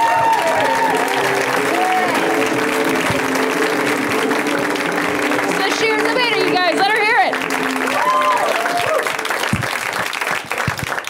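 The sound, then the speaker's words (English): Audience applause welcoming a comedian to the stage at a stand-up show: loud clapping is sustained throughout, with cheers and voices rising over it. “So please welcome to stage right now, Sasheer Zameda. Give it up for Sasheer.”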